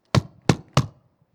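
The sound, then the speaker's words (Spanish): Three sharp, evenly spaced knocks as a person strikes an object to make noise. Each is a hollow thunk that decays quickly, with no voice. “Tú y yo, como personas, podemos golpear un objeto y hacer ruido. Miren.”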